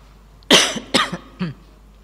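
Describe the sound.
Three deliberate, somewhat exaggerated coughs from a person in a lecture hall come about half a second apart, the first the loudest and harshest, with no talk around them.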